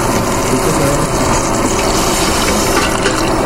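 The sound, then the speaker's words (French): Water pours steadily while sugar and butter are being prepared for heating in a cooking session. The flow makes a continuous gushing hiss at an even, loud level throughout, with no voices. “J'allais vous chercher un peu d'eau. L'eau, c'est un peu à vue.”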